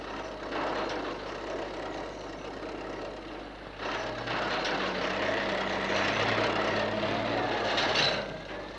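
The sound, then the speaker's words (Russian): A truck drives along through a factory construction site, its engine a steady low rumble that swells slightly toward the end, with faint mechanical whine and clatter underneath. “Навстречу людям едет грузовик.”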